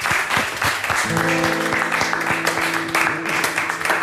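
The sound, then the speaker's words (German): Applause from a concert audience greeting a singer, a dense, steady wash of clapping throughout, with low sustained musical tones joining after about a second. “Und ich würde sagen, großer Applaus, Ralf Kaminski.”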